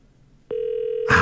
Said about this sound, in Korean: 전화 연결이 되면 이분의 얘기를 듣고 아니면 다음 분으로 사연을 또 연결해 보도록 하겠습니다. 네, 두 번만 더 신호를 보고,